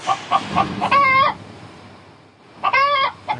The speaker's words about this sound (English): I'm in the elevator. There's a chicken in here.